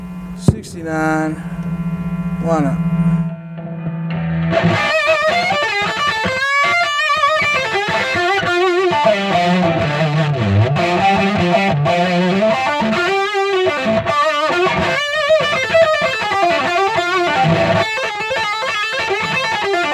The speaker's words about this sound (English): it's called a two-face because it's got a 69 fuzz face and a 70 version of the fuzz face. So you kind of can switch between the two of them. And that's the same builder? Same builder, TruFi, out of Maine area.